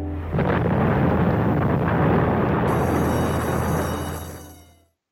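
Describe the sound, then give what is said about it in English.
Muffled film soundtrack cue meant to feel like stuffed-up ears: a dense, loud, rumbling roar swells in, holds steady, then fades away at the end. “So you hear that soundtrack cue that I was talking about, where you feel like your ears have stuffed up, that you're like, am I hearing this correctly?”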